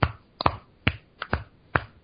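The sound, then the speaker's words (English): A single person clapping hands, several sharp, uneven claps with short gaps between them, one pair close together, each a crisp slap with quick decay and near silence around them. “let me clap one more time”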